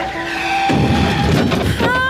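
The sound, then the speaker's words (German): Yellow Mercedes hitting a pedestrian, heard as a sudden loud crash that breaks in after a steady tone, followed by a noisy rumbling burst and a thin high tone at the end. “Riesig, wie ein Ozeandampfer, erfasst sie ein gelber Mercedes.”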